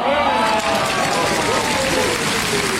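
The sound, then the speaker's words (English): A studio audience cheers in a dense, loud, continuous wash of crowd noise that stays at an even level throughout. “Yes, I will ask that the WVFN in-studio audience keeps it down while we try to do the news here.”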